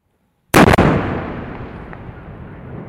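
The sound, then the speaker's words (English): A massive blast from an explosive line charge, towed by a rocket fired from a tank-bulldozer vehicle, clearing a path through a minefield. It bursts suddenly out of silence in a sharp double crack, then a long, rumbling roar slowly decays. “This is what it takes to blast a path through a minefield. A monster of a vehicle, part tank, part bulldozer, fires a rocket attached to a cord of explosives.”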